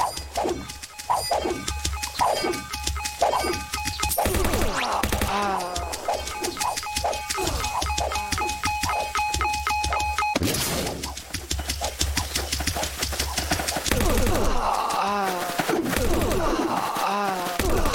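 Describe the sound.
Video game machine-gun fire: many rapid, evenly spaced shots in bursts, mixed with steady game tones, while a person talks in between.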